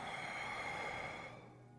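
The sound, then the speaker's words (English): Deep breath drawn in and let out through the nose with the mouth closed, part of a gratitude meditation exercise; a soft, airy, steady rush that tapers away near the end. “All through the nose with the mouth closed. Sinking our breath, let's take 1 deep inhale and exhale.”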